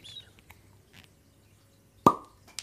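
A cork pops from the first bottle opened in 2022: a single sharp, hollow pop that stands out loudly against near quiet, followed shortly by a faint click.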